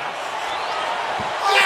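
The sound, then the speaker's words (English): A heavy slam as wrestler Rusev lands a belly to back suplex in a match against Shinsuke Nakamura, heard under steady commentary and crowd noise, with a louder swell near the end. “And Rusev again, belly to back suplex. More power, landed on.”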